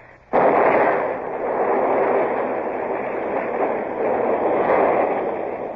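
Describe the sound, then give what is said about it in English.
A ship's powder magazine explodes in a radio-drama sound effect: a sudden loud burst swells into a sustained, broad roaring rumble that lasts several seconds without voices. “They've blown the magazine, sir. That's the end of the battery at Lanza.”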